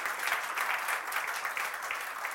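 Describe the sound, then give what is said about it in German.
A church audience applauds during a service, a sustained patter of many hands clapping together. The applause is fairly faint and steady, with a slightly pulsing texture, and no clear voices rise above it. “Kannst du diesem Herrn einen Applaus geben?”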